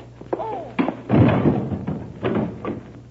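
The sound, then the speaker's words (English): A blow to the head with a gun lands as a few heavy, dull thuds and thumps in a dramatized struggle. The impacts are loud and irregularly spaced, with scuffling noise between them. “I'll slug him with my gun”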